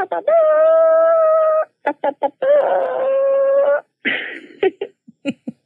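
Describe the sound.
A human voice imitating a chicken call: two long, drawn-out trumpet-like tones, each followed by a few short, sharp clucking notes, ending in scattered clucks.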